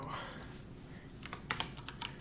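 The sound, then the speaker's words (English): Typing on a computer keyboard: quick, irregular clicks that are faint at first and grow into a few sharper, louder taps toward the end, with no talk over them. “Sorry, I don't know how to type.”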